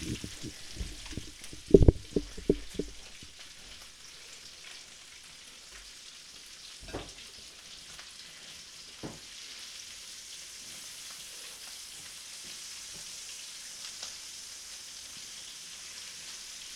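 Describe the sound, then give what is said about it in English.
Bacon fries in a pan while it is flipped. A few clattering knocks come early, then a faint, steady crackling sizzle with scattered pops continues alone. “Ooh, I'm just flipping this bacon, and it looks amazing.”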